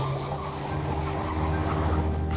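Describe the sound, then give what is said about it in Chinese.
A car engine runs with a steady, dense rumble and a low hum throughout. Broad noise sits over it, with no clear change in level and no voices. “顾青发动了汽车。”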